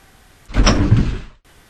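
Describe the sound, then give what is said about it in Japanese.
Elevator doors slide shut after the close button is pressed, making one smooth, fairly loud rumbling glide of just under a second that stops abruptly, with only quiet background before and after. “僕はそんな彼女がエレベーターに乗り込むと、扉の右手にある操作盤の前に立ち、閉めるのボタンを押した。”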